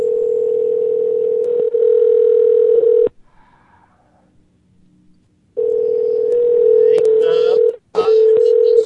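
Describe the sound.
A steady telephone dial tone hums at one constant pitch, cuts out for a couple of seconds midway, then returns loud, with a few brief extra tones and clicks near the end.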